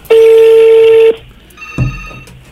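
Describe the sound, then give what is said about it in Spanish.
A telephone call being placed: a loud, steady electronic tone holds for about a second and cuts off, then a click and a fainter ringing tone follow. “Bueno, voy a marcar en este momento.”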